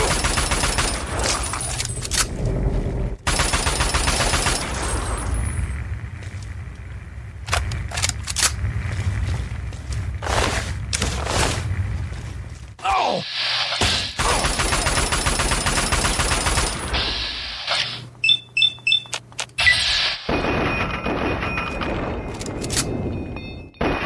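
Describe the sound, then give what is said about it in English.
A super mutant brute enemy fires a gun in a video game. Loud shots and bursts repeat throughout, then a rapid cluster of sharp shots comes near the end. “Super mutant brute shooting me from above.”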